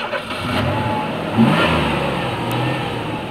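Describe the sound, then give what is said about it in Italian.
A chauffeur-driven car pulling away, its mid-pitched engine revving over a steady rumble that swells briefly near the middle, with no talk. “La macchina partì prima che io potessi dire qualcosa.”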